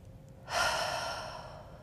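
A single deep breath, soft and airy, rising suddenly and then fading slowly, heard alone.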